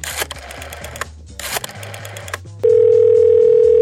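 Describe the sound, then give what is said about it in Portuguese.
A telephone dial tone as a call is placed: a few clattering bursts over a low buzz, then a loud, steady, unbroken tone that runs to the end. “Peraí, eu vou ligar, peraí.”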